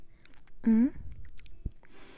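Chewing of sweet, sticky, glutinous food: soft, moist mouth sounds with a short voiced hum near the start and a single sharper click later on.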